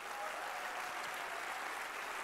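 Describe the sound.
A church audience applauds with dense, even clapping that stays steady and unbroken from start to end.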